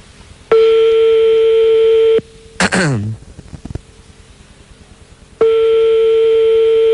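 A telephone ringback tone sounds on a call: two long, steady, buzzy beeps separated by a pause, with a brief gliding vocal sound in the gap.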